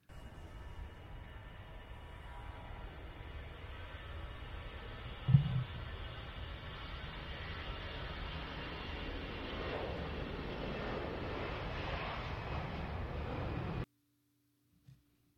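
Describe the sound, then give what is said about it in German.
An airplane taking off: a steady, broad engine roar holds for about fourteen seconds, swelling slightly toward the end, then cuts off abruptly into near silence. “So, der Start ist also schon mal geglückt. Wir befinden uns jetzt in der Luft, auf dem Anflug, über den Atlantik zu unserem ersten Reiseziel New York City”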